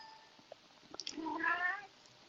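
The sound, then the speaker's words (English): A pet cat lets out one drawn-out meow, fairly faint, with a few soft ticks just before it and no talking. “I'm sorry, I'm having some technical difficulties, and my cat has decided to join us.”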